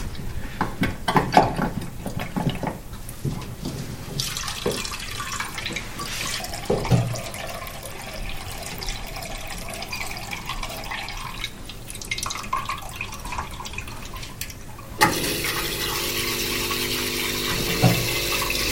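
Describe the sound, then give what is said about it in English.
Dirty, grey-black mucky water drains from a washing machine into a bowl beneath it, a continuous trickle and splash with scattered drips that turns into a steadier, brighter rush near the end. “the washing machine, and he's draining out some water into the bowl underneath. Not just water, something grey black, sort of mucky looking.”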